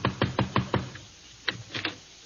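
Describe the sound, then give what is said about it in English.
Knocking on a front door: five quick, evenly spaced raps, a short pause, then a few more sharp knocks, crisp and alone. “Go ahead. Knock on the door.”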